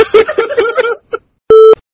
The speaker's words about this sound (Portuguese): E a minha mulher me ligando aqui, cara, ó.